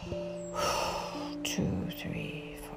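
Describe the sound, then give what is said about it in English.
During a meditation breathing exercise, a deep breath is exhaled as a soft, airy rush over a steady, low tonal drone, followed by a second shorter breathy burst. “Just breathe in, hold, 2, 3, 4, 5, expel,”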